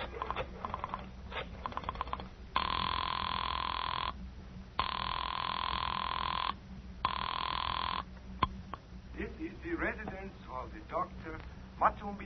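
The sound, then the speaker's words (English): A telephone rings after a number is dialed: three long, steady electronic ring tones with short silent gaps between them, with voices before and after. “I dug through the telephone book and I found Dr. Matsonby Forsythe's number and I dialed it.”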